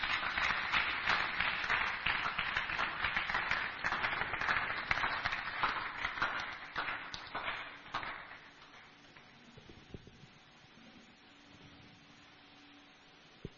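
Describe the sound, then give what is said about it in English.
A church audience claps for an apostle in a dense, fairly quiet burst of hand claps for about eight seconds. It then thins out and fades to near quiet. “Clap for God's apostle.”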